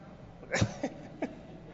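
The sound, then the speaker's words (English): Coughing from something lodged in the throat: a few short, faint, rough bursts, the first the strongest, separated by brief pauses. “I don't know if I got like, communion lodged in my throat or what in the world is going on here.”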